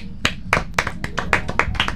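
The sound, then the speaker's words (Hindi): Hands clapping after a song on a Hindi show: a series of sharp, separate claps in a roughly steady rhythm, sparse rather than a full ovation. “वाह भाई, तालियां हो जाए।”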